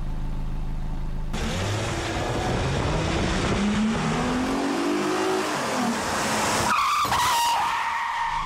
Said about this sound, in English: Now we're just going to reverse parallel in this parking space.